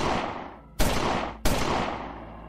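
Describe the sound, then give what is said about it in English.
Three loud gunshots fired during a robbery beside a car, evenly spaced about two-thirds of a second apart, each a sharp blast followed by a long, fading tail. “Roy, as he heard 3 gunshots,”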